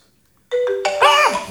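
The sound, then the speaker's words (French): Telephone ringing with a loud melodic electronic ringtone: sustained bright tones that start abruptly, step through a short tune with a few gliding, wavering notes, and play alone without voices. “Ah, ça sonne. Ah, vous m'avez... Excusez-moi, je décroche parce que moi, c'est important.”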